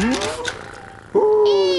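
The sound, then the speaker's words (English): A cat meows twice: a short rising mew at the start, then after a quieter pause a louder, drawn-out meow that holds a fairly steady pitch to the end. “I thought you didn't like our cat.”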